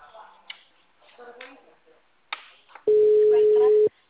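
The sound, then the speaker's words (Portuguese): A telephone busy signal: one loud, steady low tone lasting about a second, following a stretch of faint, scattered noises. “Se esse cara me atender e tiver dinheiro, ele tá sem internet. Eu vou tirar. O número está ocupado.”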